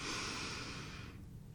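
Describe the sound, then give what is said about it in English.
A single deep breath drawn at full volume, a long airy rush lasting about a second before fading away, with no voices. “Take a deep breath, dear. In”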